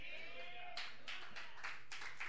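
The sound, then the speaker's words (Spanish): Faint applause during a church sermon: a brief voice at the start gives way to several uneven bursts of hand-clapping from a group, quiet throughout. “Si le va a dar el aplauso, déselo fuerte.”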